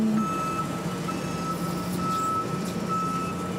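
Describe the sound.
A truck's reversing beeps as it drives in at a site with a conveyor belt: a repeating high electronic tone sounding at steady intervals over a low, rumbling engine.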